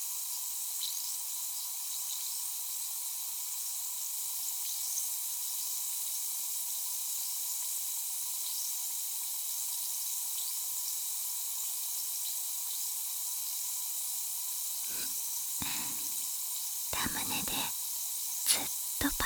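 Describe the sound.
Fizzing of a carbonated drink: a steady, bright, high hiss full of tiny bubble crackles runs throughout, with a few short breathy bursts near the end.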